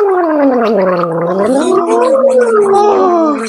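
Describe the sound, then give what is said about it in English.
Gargling a small sip of water, a loud, continuous bubbling rattle carried on a voiced tone that wavers in pitch, lasting a few seconds without pause. “you can actually gargle water. So you can take just a little bit of water.”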